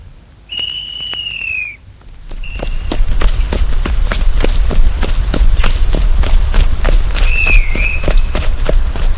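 Running footsteps: many quick, regular thuds at a steady pace over a loud, rumbling background. Bright whistling tones sound at the start and again near the end.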